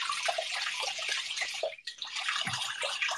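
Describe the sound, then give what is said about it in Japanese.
Rice being washed by hand in water, a steady, continuous sloshing and splashing at moderate loudness, with a brief lull just past the middle before the swishing resumes. “米を洗っております。”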